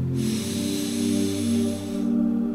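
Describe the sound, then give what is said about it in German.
A deep breath drawn through the nose during a guided meditation, a long, steady airy hiss lasting about two seconds over sustained soft tones, then fading. “Beginne diese Meditation indem du jetzt einmal ganz tief einatmest und einmal auch ganz tief ausatmest durch die Nase ein”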